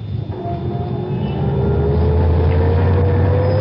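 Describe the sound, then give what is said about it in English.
A Rolls-Royce pulls away from the curb in Paris, its engine droning as the pitch slowly climbs and the sound swells steadily louder. “Get in. We're tying up traffic parking here. Come on, you're perfectly safe. Okay. Good. Drive on, Andre.”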